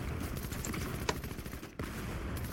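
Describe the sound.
Rapid gunfire from a shooter video game played on PC rattles in dense, continuous bursts at a steady level, with one sharper crack standing out partway through.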